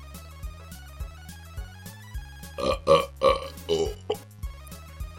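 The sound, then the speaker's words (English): Several loud, throaty burps come in quick succession over a cake, erupting in a short burst of about five belches against a steady, faint tonal background. “Why did you just burp on my cake?”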